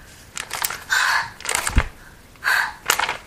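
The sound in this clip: Deep breaths taken as a demonstration for a child, heard as two breathy, hissing bursts with fainter rustling breath noise between them.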